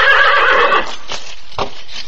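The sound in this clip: A horse neighing, an ornery saddle horse out West: a loud, shrill whinny, followed by a couple of softer, duller thumps.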